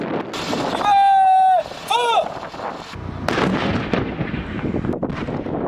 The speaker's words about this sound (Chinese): 官兵迅速按战斗队形散开，占领发射阵地，前沿侦察、弹药装填、诸元计算，各战斗单元密切协同，首轮火力打击随即展开。